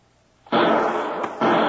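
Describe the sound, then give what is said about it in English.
Two gunshots fired from a lower window during an armed standoff with FBI agents: loud, harsh blasts of noise. The first rings on for most of a second, then after a brief dip a second blast follows. “Shots came from that lower window. Yeah, and he hasn't located us. He was firing wildly.”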